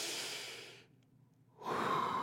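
A man imitates a big, exaggerated breath: a breathy rush of air, a brief near-silent pause, then a second, louder rush of air, with no words.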